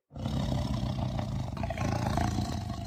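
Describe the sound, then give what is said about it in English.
A great white tiger roars: one deep, rough, continuous roar that starts abruptly and holds loud and steady for nearly three seconds. “Katie looked over and saw the great white tiger.”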